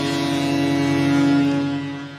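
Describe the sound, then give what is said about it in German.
A foghorn sounds at a football stadium after a home-team goal: one long, loud, low droning blast that holds steady over a wash of noise, then fades toward the end. “Die Menschen haben sich Sorgen gemacht, ob das Nebelhorn noch funktioniert.”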